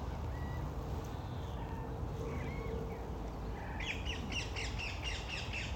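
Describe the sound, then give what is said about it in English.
Birds, mostly parakeets, call from trees around allotments: faint squawks and scattered chirps over a low steady rumble, then a run of quick, repeated high-pitched calls near the end. “you can hear the birds calling from the surrounding trees, because I'm in the corner of the allotments here, and there's trees all around, so that means there's birds all around”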